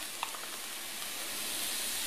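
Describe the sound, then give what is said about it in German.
Vegetable broth poured into a hot frying pan gives a steady, airy sizzling hiss that grows slightly louder over time, with a few faint crackles early on. “Ich mache jetzt direkt in die Pfanne ein bisschen Gemüsebrühe rein.”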